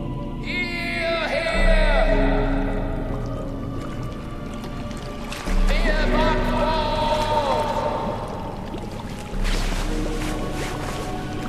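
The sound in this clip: Water sloshes and drips around a small boat, with wet squishing movements and people talking over it. Splashy surges rise at three points.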